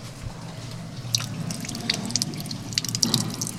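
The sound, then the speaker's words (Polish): Water runs from an opened tap at a medicinal mineral spring fed by a mountain stream, a steady soft hiss of flow with scattered drips and splashes, fairly quiet throughout. “Odkręcimy kranik. No. Płynie woda.”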